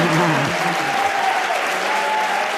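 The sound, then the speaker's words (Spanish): Live audience applauding loudly, many hands clapping in a thick continuous roar that stays at a constant level from start to finish. “Vamos a pedir que hagan ruido”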